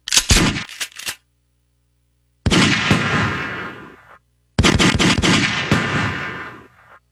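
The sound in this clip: Gunshot sound effect: three loud bursts of rapid gunfire separated by silence. The first is a short cluster of cracks, and the next two are longer volleys that each trail off.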